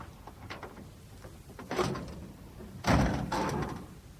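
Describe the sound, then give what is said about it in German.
A Studebaker's bonnet is opened during a breakdown, heard as two dull metallic clunks, one after the other, over low background noise; the second is louder, and nobody speaks. “Wollen Sie mal die Haube aufmachen?”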